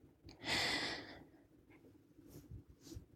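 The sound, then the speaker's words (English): A deep breath taken during a guided relaxation exercise: one long, soft, airy hiss of breathing, then near silence with a few faint breath noises. “All right, take another deep breath in.”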